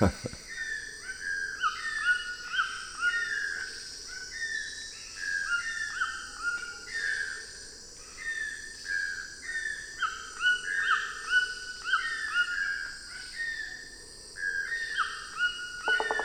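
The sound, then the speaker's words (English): Rich musical whistles of a white-throated toucan, repeated in many clear phrases, with the rough calls of a pair of channel-billed toucans behind them. The steady chorus runs throughout, moderately loud. “The rich musical whistles are from a white-throated toucan, while the rough cheers in the background are from a pair of channel-billed toucans.”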